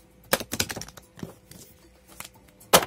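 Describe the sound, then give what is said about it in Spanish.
A deck of playing cards is shuffled. It makes crisp, papery riffling bursts that come in irregular clusters separated by short pauses, with one sharp burst at the end. “Vamos a barajearlo otra vez. Disculpa si me estoy tardando un poquito en barajearla, pero quiero que queden lo más revueltas posibles las cartas”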